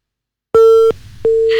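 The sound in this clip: A telephone busy tone sounds after a call is cut off: two short, loud beeps at one steady pitch, separated by a brief gap.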